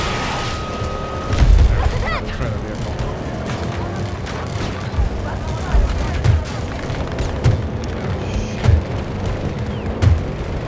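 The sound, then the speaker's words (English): Grenade launcher explosions in a military shooter video game, a series of dull, low booms spaced irregularly over a continuous rumble of battlefield noise. “This little grenade launcher is the worst.”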